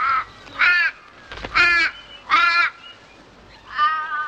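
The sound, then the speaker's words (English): Birds flying overhead give harsh, cawing calls, several loud nasal caws at a slow, uneven pace with short gaps between them and no talk. “As birds fly overhead”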